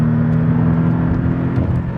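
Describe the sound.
Steady engine drone of a performance car driving, a low whirring rumble with a constant hum that holds at even loudness throughout, with no voices.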